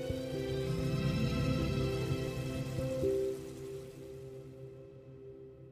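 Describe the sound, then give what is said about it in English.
Bacon fries in a pan with a dense, crackling sizzle that sounds like falling rain. The hiss holds steady for about three seconds, then drops to a fainter level. “That's not even the sound of real rain. That's the sound of bacon frying.”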